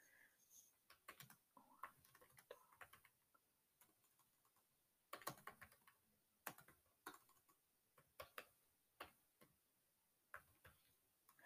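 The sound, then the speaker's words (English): Aggressive typing on a computer keyboard: sharp, hard key clacks in quick irregular flurries with short pauses between, some strokes notably louder, overall fairly quiet. “everyone tells me that I aggressively type, but I'm I'm I'm sorry. I don't mean to do it.”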